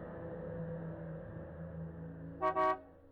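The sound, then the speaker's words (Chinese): Car horn honking at a village entrance: a couple of short, bright toots near the end, following a low steady hum. “就在这个时候，寨子口传来了汽车喇叭的声音，三声响得又亮又长”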